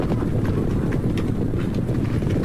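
Hooves of a Northern Wei cavalry army marching quietly through a remote mountain valley where the Taihang range meets the North China Plain, a dense, continuous clatter of many hoofbeats with no pauses.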